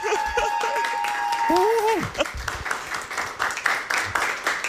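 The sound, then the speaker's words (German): Applause from an audience at a German event, heard as a loud crackle of many hands clapping. It swells after a voice at the start and continues with a fast, uneven patter. “Oh, ihr dürft auch mal applaudieren, würde ich sagen, oder?”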